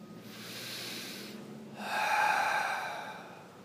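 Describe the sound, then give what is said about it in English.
Deep breathing, a slow drawn-in breath through the nose followed by a longer, fuller breath out through the mouth, both soft airy rushes with the exhale brighter and louder. “you can begin by taking some really deep breaths in through the nose, filling your body, and then out through the mouth, relaxing, releasing.”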